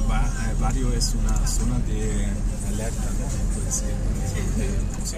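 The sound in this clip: Engine rumble and road noise from a car driving through a city neighbourhood designated an unsafe zone. The drone is steady and loud, with people talking over it throughout.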